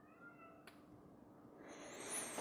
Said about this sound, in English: Give me a second. I gotta get my cat out of here.